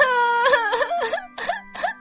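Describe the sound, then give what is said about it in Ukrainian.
Crying in a children's story: a drawn-out wailing sob followed by a series of shorter, wavering whimpers in a steady rhythm, loud and with no other talk. “Стоп! Будь ласка, не починай знову плакати”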